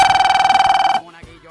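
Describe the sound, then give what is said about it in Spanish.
A telephone rings with an incoming call to a radio show: a loud, rapid electronic trill lasting about a second that cuts off abruptly, followed by faint sounds as a voice begins. “Vamos a recibir la última llamada telefónica.”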